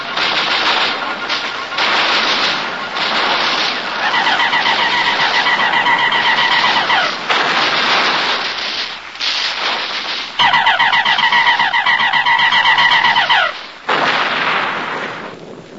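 Heavy artillery fire from batteries of 105 mm guns, heard as a series of loud, sustained blasts and roaring bursts, with a wavering, warbling whine cutting through during two stretches of the barrage.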